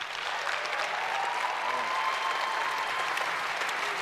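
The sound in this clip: Applause from an audience at a church talk as a newly married couple is welcomed on stage, a dense, even burst of clapping that stays steady for about four seconds.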